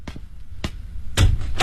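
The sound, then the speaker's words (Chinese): Knocking on a door at a home in a residential compound: a few dull, sharp raps spaced apart, with the later knocks louder and fuller than the first ones. “新龙小区，敲了敲门，她果然在家。”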